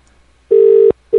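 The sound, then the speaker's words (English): Ringing tone on a telephone call line: a steady, pure, mid-low beep lasting under half a second, a short gap, then the same tone starting again, loud and clean with no talk. “I don't think this is ringing, is it? No. Try it one more time.”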